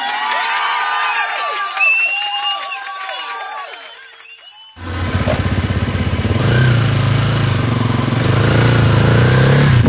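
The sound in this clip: A motorcycle engine starts up abruptly about halfway through and runs loud and steady with a low, rumbling drone that grows slightly stronger toward the end. The first half holds only high, chirping, whistle-like tones.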